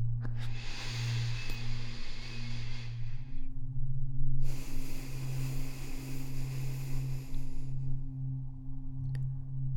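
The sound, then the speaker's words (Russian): Slow, deep breathing paced to four counts in and four counts out: two long, airy breaths, each lasting several seconds, are faint against a steady low hum. “Еще раз на четыре счета вдох, на четыре счета выдох.”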